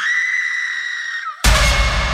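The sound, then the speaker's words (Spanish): A scream of pain rising from a forest: a long, high, sustained cry with a steady pitch, cut off at the end by a sudden burst of loud, broad noise. “Un alarido que venía desde el bosque, como si partiera el aire en dos. No era un grito de miedo, era de dolor, de pérdida.”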